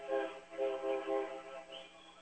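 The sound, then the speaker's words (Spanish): Horn-like tones from a diesel railway locomotive at a railroad park beside a baseball game sound as a few steady, harmonic-rich blasts in short, fairly loud pulses, fading slightly toward the end. “Ahí está la máquina, Diesel, del ferrocarril, y precisamente estamos en el parque del ferrocarril.”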